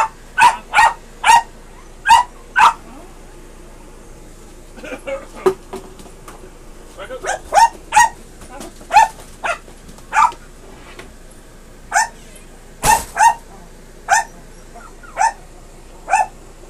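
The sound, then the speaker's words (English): A dog barks in many sharp, loud bursts, often in quick pairs or clusters with short pauses between, and a few quieter barks fall in the middle stretch. “Excuse the dog behind you guys”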